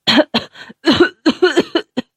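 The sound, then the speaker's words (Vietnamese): A man coughs violently after being released from a chokehold: a rapid string of many harsh, raspy bursts in quick succession, loud and alone. “Người kia mềm oặt ngã xuống đất, ho sù sụ không ngớt.”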